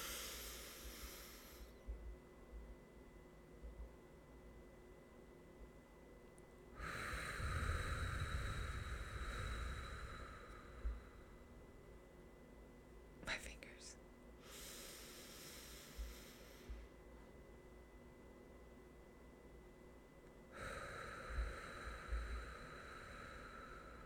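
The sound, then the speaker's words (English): Slow guided breathing following a four-count pattern: four long, soft, airy breaths with quiet pauses between them, one brief faint click in the middle, no talk. “longer pauses, longer exhales. So let's do a couple together. So we're going to do, remember, 4, 4, 4, 4, and I'll kind of guide you.”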